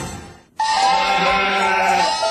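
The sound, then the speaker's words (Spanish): A sheep bleats once in a long, loud, wavering cry that starts abruptly after a brief quieter moment and carries on steadily to the end. “Muchas ovejas son un rebaño.”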